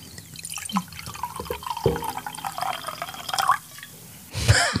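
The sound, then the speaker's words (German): Coffee is poured, heard as faint, irregular drips and a soft trickle of liquid, ending in a louder, brief splashing gush. “Und wir haben ja noch gar nicht eingegossen.”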